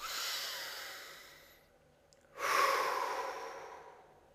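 A deep breath during a guided tapping exercise: a long airy inhale, a short pause, then a louder, fuller exhale that fades out. No voices are heard.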